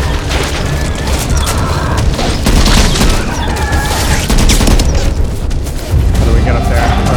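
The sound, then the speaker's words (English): Rapid video game gunfire with heavy booms forms a dense, continuous barrage through the whole clip, staying loud from start to finish while players talk over it. “Why are you shooting at me? Reloading.”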